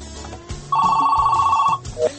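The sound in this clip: Telephone ringing for an incoming call on a call-in programme: one sustained warbling ring about a second long, set over low background rumble and muffled sounds.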